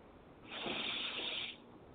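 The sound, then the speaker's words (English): One deep breath drawn in, a single breathy hiss lasting about a second that rises and then cuts off, with quiet before and after. “And deep breath in.”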